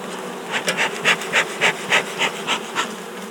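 A beekeeper's smoker puffs smoke over an open beehive in a quick, even run of soft, breathy bursts, each a short airy hiss of similar loudness.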